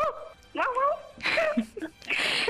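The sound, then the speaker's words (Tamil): A voice imitates a dog barking together with a car horn. A few bursts of yelping, whining vocal sounds with bending pitch are separated by short gaps. “நாய் குறைக்கிற சத்தம் கார்ல அப்படியே horn சத்தம் கேக்குது, ரெண்டையுமே சேர்த்து அப்படியே சொல்லுங்க பாக்கலாம்.”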